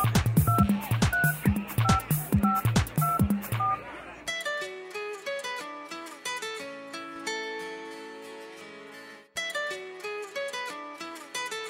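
Telephone number being dialed on a keypad: many quick, short beeps of varying pitch with clicky key presses in a steady run, then a melodic electronic tune takes over and continues.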